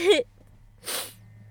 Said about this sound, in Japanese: くしゃみが出るごめんなさいくしゃみがごめんなさい、めっちゃ可愛くないくしゃみが出るやんね